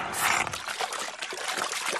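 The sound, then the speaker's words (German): Water is slurped up out of a pond, sucked dry in one go. The sound is a continuous rushing, gurgling wash of liquid noise that holds steady for about two seconds without a break. “Kalli schlürft den Teich aus.”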